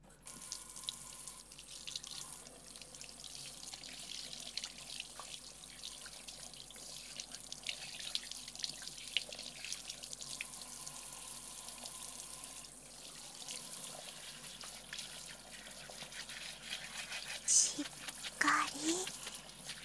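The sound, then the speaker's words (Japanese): Water running from a tap to rinse shampoo out of hair, a steady, soft gushing flow with small splashes and drips that shift in level throughout. “はい、では洗い流しますね。”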